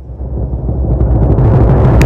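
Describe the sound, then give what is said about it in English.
A deep, booming timpani hit used as a sound effect, with a loud low rumble that swells and sustains for about two seconds. “Timpani, hit it.”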